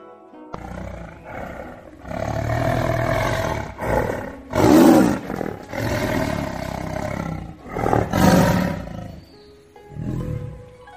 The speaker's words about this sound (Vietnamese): ở trước người Tô Dật, trong hỏa cầu nóng rực kia, một tiếng hổ khiếu truyền ra